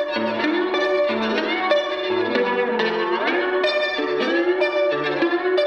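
A reamped slide guitar, recorded clean through a DI, is played back heavily processed with distortion, reverb and echo. The notes are thick and sustained, with some gliding pitch bends, loud and alone.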